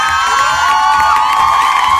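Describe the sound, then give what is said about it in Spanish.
Cheering and whooping from a studio audience, loud and continuous, with shouts and clapping blending into a bright, sustained crowd roar. “Un aplausote. Un aplausote.”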